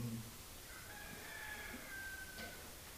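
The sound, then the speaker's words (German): A rooster crows once, a thin, drawn-out call that holds for a couple of seconds, faint against a steady background hiss. “Der Hahn hat auch gerade eine Evolution. Wo seid ihr, Hühner?”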